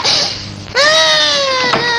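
A little girl cries after a brief breathy sound. She lets out a loud, sustained, high wailing tone that sags slightly in pitch and holds to the end.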